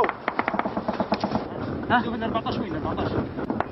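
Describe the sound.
Gunfire crackles during desert combat in Libya: many sharp, loud bursts of shots and cracks, some rapid and clustered, rising over a continuous gritty background with speech running through it.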